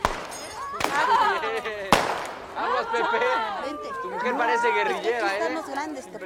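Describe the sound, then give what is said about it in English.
Two sharp gunshots as people fire off guns at a shooting outing, cutting through continuous chatter and talking voices. “the upper class people firing off guns was also just a little bizarre thing. I got a couple seconds of that.”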